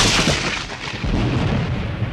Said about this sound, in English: a huge thunderclap is heard